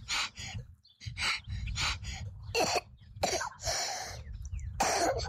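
A child coughs repeatedly, harsh hacking bursts in uneven clusters with raspy gasping breaths between them, fairly faint and with no speech.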